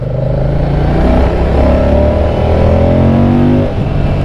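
Moto Guzzi Mandello V100 motorcycle engine under way at about 30 mph in fourth gear: a loud, steady, throbbing drone whose harmonics climb gently through the middle before easing off at the end.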